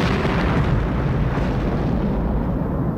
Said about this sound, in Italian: 500 kg di tritolo esplodono sull'autostrada Palermo-Mazara del Vallo